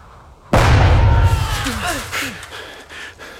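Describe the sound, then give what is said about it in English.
A grenade explosion thrown at German soldiers in wartime: a sudden loud blast with a deep, heavy low rumble, fading into a long, rough roar that slowly decays. “If the Germans spot us, we're done for. My God. Hier stinkt's. Ich brauche Spieß. Germans. I'll throw a grenade.”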